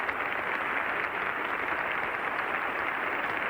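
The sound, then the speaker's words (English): Concert applause for Toscanini, a dense, even wash of clapping that holds steady and fairly faint from start to end without pause. “Mr. Toscanini is being cheered by the audience at this afternoon's concert.”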